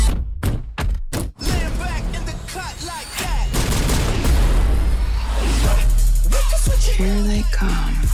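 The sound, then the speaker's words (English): Gunfire rakes an orange Lamborghini during a chase involving a tank, opening with a few sharp, separate shots, then giving way to a dense, continuous roar of action noise with low booms and rumbling. “Why are they shooting at me?”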